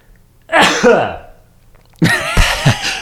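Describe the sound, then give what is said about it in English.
A single loud, sharp sneeze bursts out after a near-silent moment. A short pause follows, then people start talking. “And then you just bust out with a sneeze. Just a sneeze. Yeah, that was good timing.”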